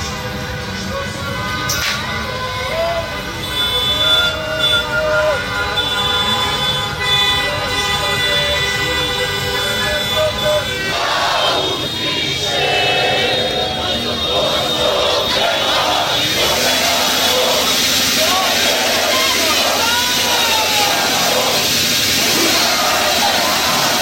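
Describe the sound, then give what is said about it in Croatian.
Thousands of football fans celebrate in the streets of Zenica: siren-like wails and car horns tooting sound over a constant crowd din, loud and sustained throughout. “Posebnu atmosferu donijela je Zenica, grad koji je godinama bio dom reprezentacije i mjesto nekih od najvećih pobjeda državnog tima. Hiljade navijača izašle su na gradske ulice, slaveći do duboko u noć.”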